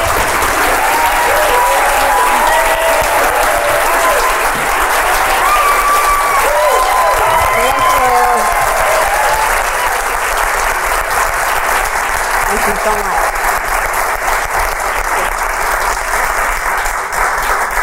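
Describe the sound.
Sustained applause from an audience welcoming guest Holly Hunter, a dense, steady clapping that holds at an even, loud level throughout, with a few faint voices mixed into the crowd.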